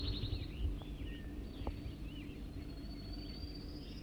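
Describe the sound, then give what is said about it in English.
A wild bird calls faintly with a few thin, high chirps and a drawn-out whistled note over a steady low rumble. “Wild bird.”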